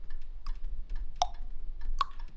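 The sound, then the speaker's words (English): Ticking of a grandfather clock: a slow, evenly spaced series of sharp ticks, some crisper and louder than others, over a faint low hum, with no voices. “the ticking of the grandfather clock in the background. And actually, as you start to hear this sound, you hear it chime”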